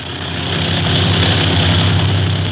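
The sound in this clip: Propeller engines of a China Clipper flying boat drone steadily in flight several hundred feet up, about half an hour out of Midway Island. The hum is loud and continuous, swelling slightly, with no talk.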